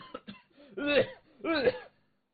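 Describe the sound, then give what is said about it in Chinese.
A storyteller vocally imitates a man choking on wine: a couple of short throaty coughs lead into two longer, strained, sputtering gasps with a wavering, voiced pitch, fairly quiet and alone, then silence. “这一下子呀，真就把这武重归给呛那儿了。刚才那个酒啊，呛到嗓子眼里，又给吐出来了。”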